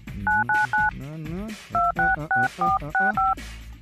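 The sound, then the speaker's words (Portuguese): Telephone keypad dialing tones from a test call being placed: three quick beeps, then a voice speaks briefly, then six more evenly spaced beeps, each a crisp two-tone chirp. “Deixa eu tentar ligar para mim.”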